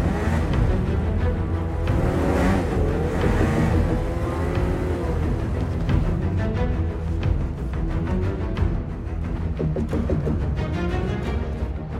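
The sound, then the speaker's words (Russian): Snowmobiles driving fast through a snowy forest in a film soundtrack, a continuous dense roar of engines with shifting pitch that stays loud throughout. “Босс и чернокожий мужчина быстро едут на снегоходах.”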